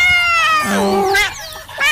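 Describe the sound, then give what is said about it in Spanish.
A house cat meows in short harmonic cries amid talking voices, the cries rising and falling in pitch over about two seconds. “Y Suchín, venga para acá que la están saludando. Eso. Miau.”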